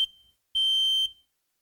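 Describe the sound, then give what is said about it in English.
Smoke alarm going off with two piercing, high-pitched electronic beeps: the first fades out at the start, then a sustained tone of about half a second, with no talk. “Now, what do we do when the alarm goes off like this?”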